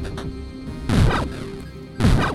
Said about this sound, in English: I'm just going to try shooting. That did some damage. Reload. Shoot again. Shoot again.